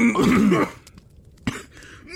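Coughing and throat clearing after a gulp of Fireball whisky went down the wrong pipe: a strained, rasping voiced stretch, then a sharp harsh cough burst, with another rough hack rising at the end.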